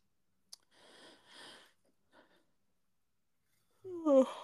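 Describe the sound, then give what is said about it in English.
A short voiced yawn with a wavering tone closes the sequence, after a sharp click and a few soft breathy sounds separated by silence. “Yeah, was that a yawn? That one was.”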